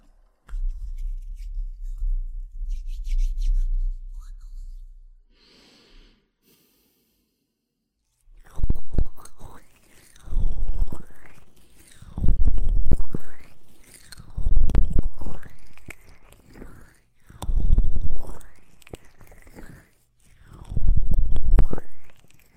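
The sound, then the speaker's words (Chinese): Hands slick with rose essential oil massage a man's ears in close, wet rubbing and squishing strokes. A low rumbling rub comes first, then a pause, then several rhythmic bursts of friction that swell and fade. “这是店里新进的玫瑰精油，老公，要不要试一下？那人家这个给老公的耳朵按摩”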